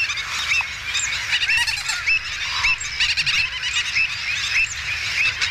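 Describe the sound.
A dense chorus of waterbirds calls nonstop at a wetland colony in the Albufera: gull-billed and other terns, black-headed gulls, avocets, black-winged stilts and flamingos. Many overlapping shrill cries, chatters and honks form a loud, continuous tangle with no voices.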